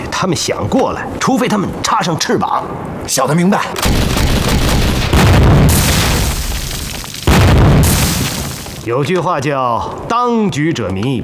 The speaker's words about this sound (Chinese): 解放军刚才炮击南天门，现在炮弹打到乌龙顶来了。